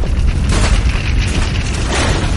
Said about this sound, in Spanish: El fuego llega al camión. El camión explota.